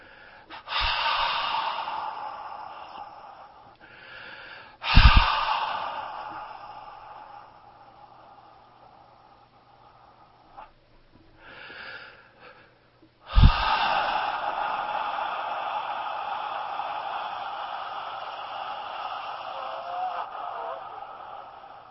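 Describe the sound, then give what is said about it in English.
Heavy breaths are blown directly into a microphone during a religious healing service, a few long noisy exhalations, two of them opening with sharp forceful puffs. “I breathe on you now.”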